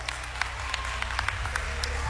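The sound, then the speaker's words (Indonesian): Applause from an audience at a game-show style event after winners are announced, a steady dense wash of clapping with a low musical hum underneath, fairly quiet and continuous throughout. “Tepuk tangan sekali lagi dong.”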